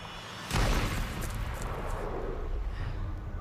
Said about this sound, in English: All right, I'm gonna shoot.